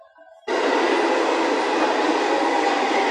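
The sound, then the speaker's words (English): A metro train runs toward Jiukeshu station. Its loud, steady rumbling roar begins abruptly after a brief faint tonal sound, then holds level without a break. “九棵树站到了。 We are arriving at 九棵树 station.”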